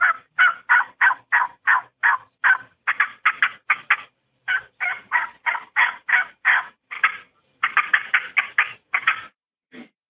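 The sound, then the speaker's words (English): Turkey hunting calls imitate clucks, cuts and yelps: many short, raspy, fairly high notes in quick runs, broken by brief pauses, loud and alone without talk. “it's those three calls right there, clucks, cuts, and yelps”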